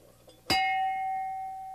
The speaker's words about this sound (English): And I thought we'd just started out by ringing some bells. Here's a big one.